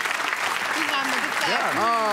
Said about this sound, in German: Vielen Dank, großer Applaus.